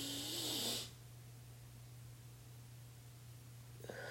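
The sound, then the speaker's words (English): A single deep breath drawn in during a guided breathing exercise: a rushing, airy inhalation lasting under a second, then near-silence over a low steady hum. “So we're going to deep breathe twice to start. Breathe in.”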